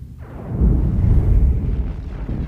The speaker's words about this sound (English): Kaboom. Way to ruin the mood, Space. Report! A quantum implosion has occurred within the Amargosa star.